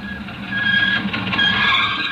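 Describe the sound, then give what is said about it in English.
A car comes along the main highway toward a hitchhiker, its engine rumble swelling into a louder rush with a high, steady whine, and no voices are heard. “Out to the main highway, pants pulled low and thumb up in the air. Here comes my ride. He's got to stop. Got to stop.”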